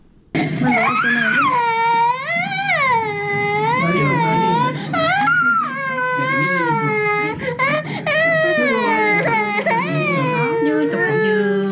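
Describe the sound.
Malnourished children from poor families cry from hunger. The loud wailing sobs rise and fall in long, high-pitched cries that carry on almost without pause.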